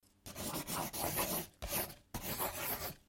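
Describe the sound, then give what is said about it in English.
A pencil writes on paper in four scratchy strokes, each a short burst of soft rasping with brief pauses between. “This is my pencil. I like writing.”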